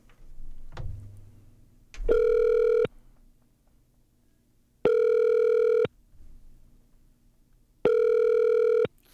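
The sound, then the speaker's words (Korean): Ringback tone of a phone placing a video call: three buzzy, harmonic-rich beeps, each about a second long and evenly spaced by longer silences, preceded by a couple of soft taps. “영상통화할까요? 오늘 그 출근하셨다고 했으니까, 통화가 될지 안 될지 모르겠는데, 한번 전화를 해보겠습니다.”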